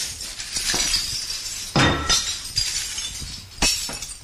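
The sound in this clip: Crockery is being smashed in a smash room. Several sharp crashes of breaking plates and cups burst out one after another, each followed by the clink and rattle of shattered pieces over a steady background hiss.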